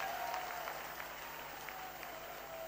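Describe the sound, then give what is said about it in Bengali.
An audience applauds at a public political gathering marking an inauguration, producing a dense, steady patter of many hands clapping, faint and even throughout without clear peaks. “আপনি জানেন আমরা করতালির মাধ্যমে আমাদের এই প্রাণের দাবি পূরণ করার জন্য মাননীয় প্রধানমন্ত্রী তারেক রহমান এমপিকে”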